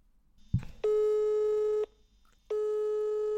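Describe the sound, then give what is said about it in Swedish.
A telephone call tone sounds as two long, steady electronic beeps separated by a short silence, after a brief thump at the start. “Kan vi ringa Johanna? Ja, ja. Johanna okay.”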